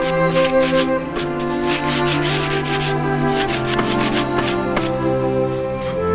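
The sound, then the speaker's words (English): Steady rasping of a sanding block worked back and forth over the wooden boards of a toy sled; the rubbing is continuous and fairly loud throughout, with no voices. “hand works a sanding block over the toy's wooden boards.”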